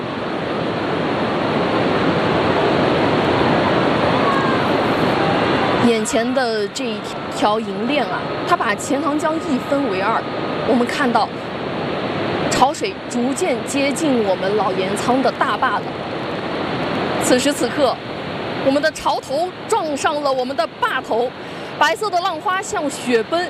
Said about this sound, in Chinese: 此时此刻，我们的潮头撞上了我们的坝头，白色的浪花像雪崩扬起的雪尘腾空而起，又纷纷扬落江面。